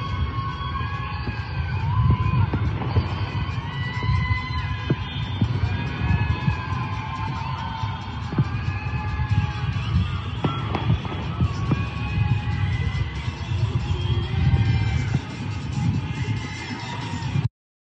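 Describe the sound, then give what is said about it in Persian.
Celebratory fireworks set off by a street crowd in Sanandaj after a football match. Scattered pops and crackles sound over a continuous crowd roar with rising and falling whistling tones, voices run throughout, and the sound cuts off abruptly. “دارن از این فشفشه ها میزنن، فشفشه های خوشحالی.”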